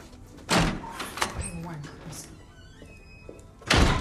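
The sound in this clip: A house door closes with a dull, heavy thunk. A second thud lands near the end, and a voice speaks quietly between the two knocks.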